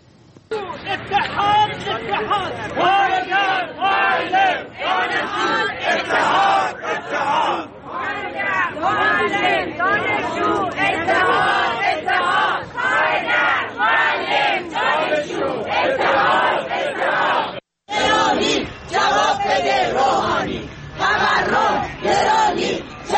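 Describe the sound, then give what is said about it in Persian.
Protesting teachers from Alborz and Kermanshah provinces chant at a rally over their living conditions, many voices shouting together in loud rhythmic bursts almost throughout, broken by one brief silence near the end. “گروهی از فرهنگیان استان البرز و کرمانشاه هم این هفته در اعتراض به وضع موجود و وضعیت معیشتی خودشون دست به تجمع اعتراضی زدند که صحنه‌هایی از این تجمعات رو با هم می‌بینیم و می‌شنویم.”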